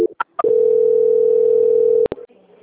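A telephone tone plays while a call is transferred. A few short beeps of differing pitch lead into a loud, steady mid-pitched tone lasting about one and a half seconds, which ends in two sharp clicks and then faint line noise.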